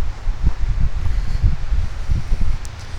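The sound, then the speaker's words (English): Wind blowing through a forest on a cold day, a steady low rushing roar with rustling texture and irregular gusty buffeting against the microphone, with no voices. “I'm turning around, if only to avoid the wind.”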